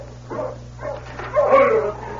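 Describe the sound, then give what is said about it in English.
Sled dog team barking: a few short yips and whining barks that rise into a louder, longer whimpering cry, over a steady low hum. “there's somebody coming in with a dog team”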